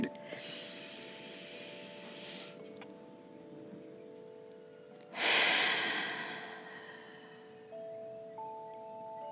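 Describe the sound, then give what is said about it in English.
A deep breath: a long, hissy inhale lasting about two seconds, a pause, then a louder, fuller exhale that tails off, with faint sustained musical tones underneath throughout. “Will you guys join me for a deep breath? Ready?”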